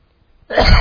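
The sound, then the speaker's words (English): A single loud sneeze during a church sermon. It bursts out abruptly after a brief silence as a harsh, noisy blast that stays strong to the end. “excuse me. Aren't you glad I sneezed that way?”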